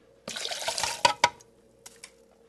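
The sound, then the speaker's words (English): Liquid swishing as a mixture of wine and spices is stirred: a short burst of wet sloshing, then a few sharp knocks and fainter taps, with no talk. “continues stirring the mixture of wine and spices, and toward the end, she adds raisins soaked in aquavit, a potato-based liquor.”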